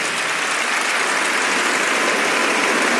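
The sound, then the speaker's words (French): Dense, loud audience ovation of sustained clapping that holds steady for the full three seconds, with no voices standing out above it. “Merci de leur faire cette ovation.”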